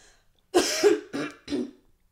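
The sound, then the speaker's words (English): A moist, phlegmy cough comes in three bursts. The first is longer with a double push, and two shorter hacks follow, heard alone with no talk. “Would you consider that cough dry or moist? Oh, it was a fucking moist one.”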